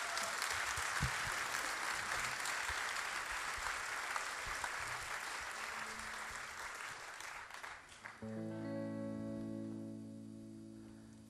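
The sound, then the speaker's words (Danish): An audience applauds a Danish folk singer with steady clapping that gradually thins and softens. Near the end, sustained tones of music come in as the applause fades. “Vær sød at give ham en stor hånd.”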